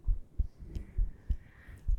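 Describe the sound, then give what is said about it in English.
A person's heartbeat: soft, low thumping beats in a steady, regular rhythm, faint and alone with a light background hum. “Just focus on my breathing and my heartbeat.”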